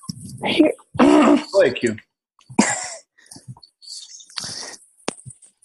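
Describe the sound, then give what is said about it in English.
Throat clearing, several harsh, rasping bursts of varying length, loud and gravelly, followed by a few fainter clicks and short breaths. “excuse me, I gotta clear my throat on this one”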